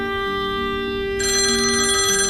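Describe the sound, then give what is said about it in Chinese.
A telephone rings with a steady, loud electronic tone that grows brighter and fuller partway through. It continues without a break and no voices are heard. “啊，不好意思，我接个电话。”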